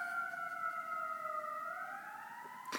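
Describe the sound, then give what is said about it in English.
An emergency vehicle siren sounds in a downtown city area. It is a faint, continuous two-tone wail that sags slowly in pitch and then climbs again near the end, heard on its own. “I just, there's, you know, sirens from time to time.”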